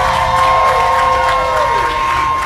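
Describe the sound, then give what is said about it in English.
An audience applauding and cheering after being called on for a big round of applause: a dense, continuous, loud wash of shouting, whooping and clapping that stays steady throughout. “All y'all give a big round of applause”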